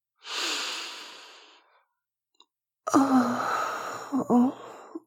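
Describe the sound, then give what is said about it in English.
A long, deep inhale, breathing in the scent of books in a library. After a pause comes a voiced, contented exhale with a humming tone. No words are spoken. “Breathe in the scent of this place.”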